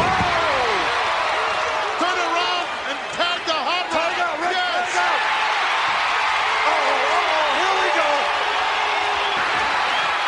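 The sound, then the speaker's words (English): A wrestler's power slam hits the ring mat during a wrestling match, a heavy thud buried in loud, continuous crowd noise while a commentator talks over it. “Oh, look at this power slam.”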